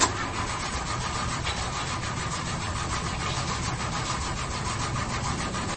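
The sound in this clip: A car engine cranking but failing to start, with the fault blamed on the clutch plate: a loud, continuous, rhythmic churning of the starter runs unbroken for several seconds without the engine catching.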